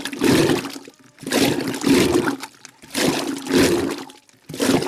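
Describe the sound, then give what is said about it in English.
Rhythmic sloshing and rumbling of yogurt milk churned into froth by a hand-pulled wooden rod whose paddles turn one way, then the other, coming in repeated surging strokes that swell and fade with short gaps between. “when she pulls back and forth, the rod turns one way and then the other. And its paddles churn the milk into a rumbling froth.”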